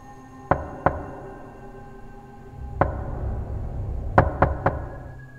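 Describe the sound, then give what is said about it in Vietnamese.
Urgent knocking on a door late at night: two quick knocks, a pause, a single knock, then a fast burst of three, each sharp and loud over a low, steady background. “tiếng gõ cửa lại vang lên rất rõ, có vẻ như gấp gáp”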